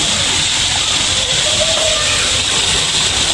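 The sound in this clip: Water boiling on a briquette-fuelled stove, a loud, dense, steady hissing rush with no pauses.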